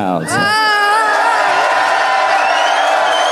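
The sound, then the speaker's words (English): A loud theatre audience cheers a magician after his act, a sustained roar of many voices with bright whoops that swells quickly at the start and stays high and continuous throughout. “He's bowing and thanking the audience, and then he, I don't know, would he motion them to quiet down or something? Well, they're being so loud.”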